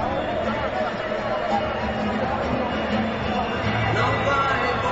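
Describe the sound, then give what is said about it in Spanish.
Cerro Porteño supporters roar and chant at a football stadium as their team comes out for the warm-up. The dense crowd noise stays steady and loud throughout, with no single voice standing out. “Escucha, el público de Cerro.”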